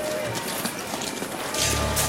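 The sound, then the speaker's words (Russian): People running through bushes, with a continuous rough rustle of brush and hurried footfalls that grows louder near the end. “Вот они через кусты пробираются, в нашу сторону бегут.”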